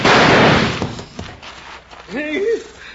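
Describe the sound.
A single loud gunshot bursts out during a Western shootout, its sharp crack decaying over a moment before a brief voice is heard.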